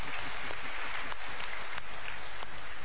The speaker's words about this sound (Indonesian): Kita berikan tepuk tangan dulu.